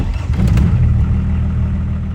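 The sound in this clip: A 1988 Volvo 760 car used as an A-tractor runs its engine with a steady, loud, low rumble and a slight clattery edge, unbroken throughout. No voices.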